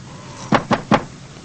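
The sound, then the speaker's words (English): A locked door being tried gives three sharp, quick thuds in close, even succession, loud against an otherwise quiet background. “He quickly walks to their door. He tries to open it, but it's locked.”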